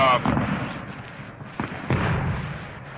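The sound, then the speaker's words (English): Fireworks rockets explode at a 1948 World Series baseball game, giving a few deep, muffled booms and thuds under a man's continuous talk. “while the rockets resound in the background”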